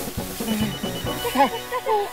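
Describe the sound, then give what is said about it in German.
A mobile phone rings with tonal, melodic ringtone bursts that grow clearer toward the end, heard under people talking. “ist das Handy. Geht bitte. Schnell, schnell, schnell.”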